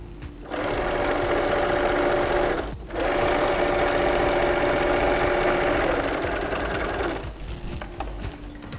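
A sewing machine stitches a side seam with a backstitch, making a steady mechanical whir. It runs in two long bursts split by a brief pause, then stops.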